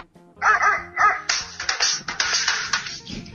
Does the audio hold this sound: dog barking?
yes

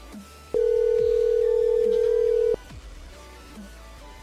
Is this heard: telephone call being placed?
yes

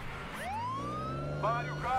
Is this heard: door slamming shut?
no

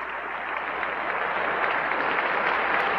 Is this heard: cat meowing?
no

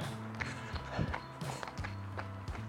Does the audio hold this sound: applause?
no

